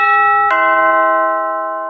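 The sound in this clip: A house doorbell rings with two bright chime tones, the second struck about half a second after the first. Both tones hold and slowly fade, heard alone.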